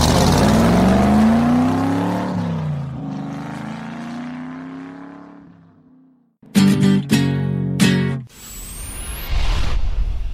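A green car's engine roars as it drives off, its pitch sliding downward while it fades away, followed by a few loud, choppy mechanical bursts and a high rising whistle.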